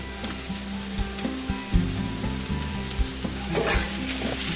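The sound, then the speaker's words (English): Garlic and mushrooms sauté in a frying pan over medium heat, giving a steady, fairly quiet sizzle with scattered soft taps and scrapes from stirring throughout. “Just saute the mixture for about 3 to 4 minutes until the mushrooms are wilted.”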